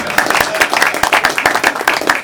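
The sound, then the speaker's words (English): Applause at a committee meeting as a staff member is acknowledged: dense, steady clapping from many hands throughout, loud and without talk. “Applause for Dennis O'Connor.”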